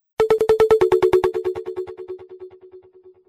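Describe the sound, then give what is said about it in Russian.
A telephone rings with a rapid trill of loud electronic pulses at a mid pitch. The pulses drop slightly in pitch partway through and then fade away gradually as a decaying tone. “Стальной голос, прозвучавший в телефонной трубке, был агенту незнаком, но определитель номера показал, что звонит кто-то из верхушки СОП.”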